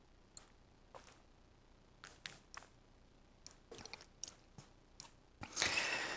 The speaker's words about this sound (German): Aber wenn ich jetzt noch zu euch sprechen will, muss ich, glaube ich, noch was trinken.